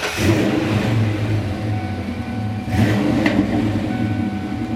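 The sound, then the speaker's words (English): Manual-transmission car revving through a Flowmaster exhaust: a loud, steady low engine rumble with one brief surge in revs partway through. No one talks. “That's the sweet sound of Flowmaster.”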